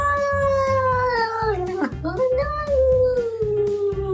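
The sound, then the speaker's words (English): A small cat on top of an elevated cat play area lets out a long, loud, drawn-out plaintive meow. Its pitch dips midway and then rises again, over a faint low background. “it is the sound of a cat. So we have a lot of correct responses today. It's a little cat that was standing at the top of an elevated cat play area, and it was trying to tell its human to please get him down.”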